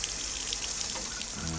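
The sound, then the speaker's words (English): Water running from a faucet during a home plumbing fix, a steady splashing hiss that holds an even loudness throughout, with no voices. “Turn on the faucet.”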